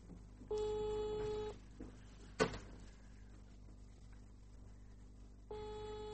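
Ringback tone of an outgoing phone call: two faint, steady buzzing tone bursts about four seconds apart, the first lasting about a second and the second still going at the end, with a brief click in the quiet gap.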